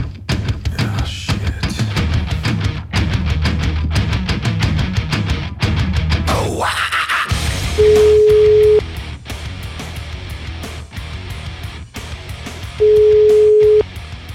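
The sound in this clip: Telephone tone while a call is placed: two long, steady, loud beeps about five seconds apart, following a stretch of busy rhythmic tapping and noise.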